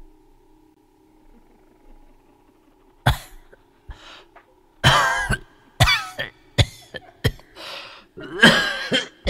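An old woman's rasping cough: a quiet stretch gives way to many harsh, irregular coughing bursts, some of them loud and raspy, over a faint low hum.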